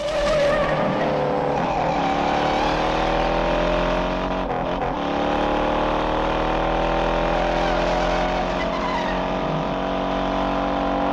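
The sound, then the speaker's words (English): Two cars, one a sedan, race down a bumpy switchback road, leaving the ground over humps. Engines roar continuously, with repeated tire squeals and skidding and a few sharp shifts in engine pitch. “Two cars jounce down a long switchback, leaving the ground at every hump.”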